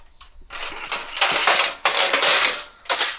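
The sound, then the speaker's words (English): A metal baking sheet clatters and rattles as it is taken out in a kitchen for use in the oven, with a few loud bursts of scraping, jangling metal noise in quick succession. “Let me get a baking sheet out.”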